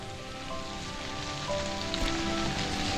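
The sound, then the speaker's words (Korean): Light drizzle falls outside a station, making a soft, continuous patter of rain. The sound is quiet and even throughout, with faint tonal lines in the background. “역 밖은 여전히 부슬부슬 비가 내리고 있었고”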